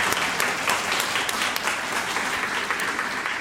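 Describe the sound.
Audience applause welcoming a speaker to an evening talk, a dense, steady wash of many hands clapping that holds at an even loudness throughout, with no voices over it.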